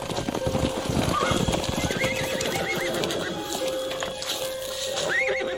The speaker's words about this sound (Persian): من ازشون خواستم که برامون یه اسب چابک بفرستن.